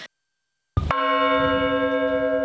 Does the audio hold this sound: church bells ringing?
yes